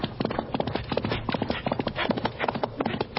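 A pony gallops, its hooves pounding in a quick, steady, driving rhythm of loud clip-clops throughout, without pause.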